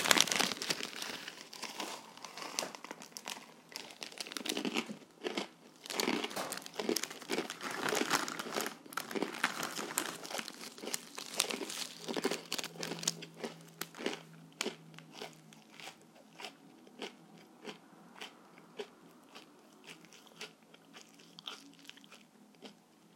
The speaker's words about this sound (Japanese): 醤油味ですね。これどこのせんべいなんだろう。